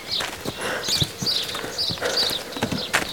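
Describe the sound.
Hooves of a horse pulling a carriage clip-clop in a quick, steady rhythm of many crisp knocks, moderately loud and continuous for the whole stretch.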